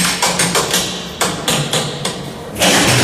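A metal sounding bar is tapped along prison cell window bars in a young offenders' detention unit to check for cut bars. It gives a quick, irregular series of sharp metallic clanks, each with a short ringing tail.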